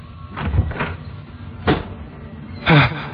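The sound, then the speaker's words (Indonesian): A door opening: a few dull clunks and knocks over a low steady hiss, spaced unevenly, with the last one the loudest. “terdengar suara pintu terbuka, dan buru-buru aku berlari melihat ke bawah.”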